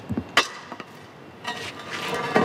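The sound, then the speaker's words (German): With a long tool, a worker shoves a heavy manhole cover across cobblestones on a street in central Rome in the early morning. It gives a few sharp metallic clinks, then a faint, gritty scraping drag. “Mit einem langen Werkzeug schiebt Alessandro Aurelia von der Firma Romana Ambiente einen Gullideckel in einer der Straßen im Zentrum von Rom übers Kopfsteinpflaster.”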